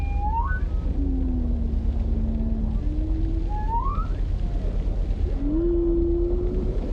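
Whale vocalizing underwater: a few rising tonal upsweeps alternate with long, low, drawn-out moans that bend slightly in pitch, all over a steady rumble of ocean noise.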